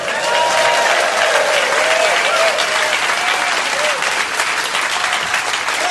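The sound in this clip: A theatre audience at the Leicester Square Theatre applauds a comedian's entrance with loud, dense, sustained clapping and some cheering voices, holding steady throughout.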